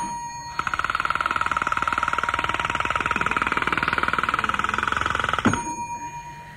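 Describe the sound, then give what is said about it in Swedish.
A rapid electric bell rings continuously for about five seconds as a voting signal telling listeners to hold down their buttons, loud and steady, then stops abruptly. “Ja, och så ska jag be att få ett prov på vår signal som låter så här.”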